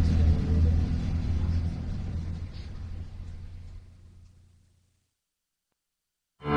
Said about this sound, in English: barely making the last bus of the day. This bus is headed back to the visitor center.